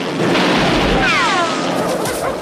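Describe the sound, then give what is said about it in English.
A gunshot blasts in a film scene, and a bullet ricochets off the rocks with a thin whine that falls in pitch. Rumbling noise hangs beneath it, and a sharper crack comes near the end. “He takes aim and a bullet ricochets off the rocks above Rambo's head.”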